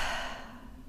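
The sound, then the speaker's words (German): A deep breath during a guided relaxation exercise, meant to be drawn in through the nose and let out through the mouth: a single soft, airy whoosh that fades over about a second. “atme einmal tief durch die Nase ein und durch den Mund wieder aus.”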